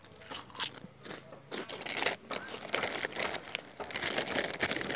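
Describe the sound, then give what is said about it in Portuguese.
Biscuits being eaten from a packet: plastic wrapper crinkling mixed with crisp, crunchy bites and chewing, irregular and fairly quiet throughout. “Esse pacote de biscoito não vai acabar.”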